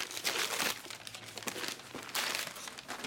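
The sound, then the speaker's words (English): Crinkling wrapping paper on a rectangular birthday gift box as it is unwrapped on a counter: a continuous, fairly loud rustle and crackle with uneven surges and no voices. “unwraps the gift”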